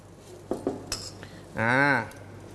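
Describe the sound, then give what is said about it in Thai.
Metal utensils clink and scrape in a pan as chili peppers are added to stir-fried water spinach: a few light, quick knocks, then a longer, smoother scraping sound. “ต่อไปใส่พริกจี้ฟ้าตกแต่งสีครับ”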